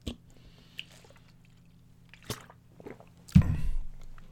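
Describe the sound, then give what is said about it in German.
A quick sip of a drink: a few faint, wet mouth clicks spaced out, then a louder, low, gulping burst near the end. “ich muss mal einen kurzen Schluck trinken.”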